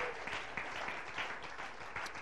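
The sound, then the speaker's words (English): An audience claps in a church sanctuary during a worship service, producing steady, sustained applause of many hands, dense and even without pauses, at a fairly soft level. “Could you clap one more time all over this sanctuary?”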